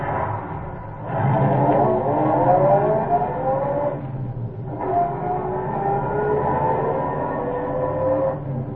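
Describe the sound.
A car engine with a freshly cleared carburetor and a reluctant starter revs on a desert road. Its tone climbs through a long run, dips briefly, then climbs again in a second run.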